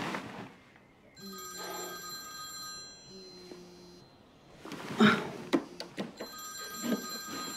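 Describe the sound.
A telephone rings in a few repeated bursts of bright, buzzing bell tone, with clattering knocks and clicks toward the end.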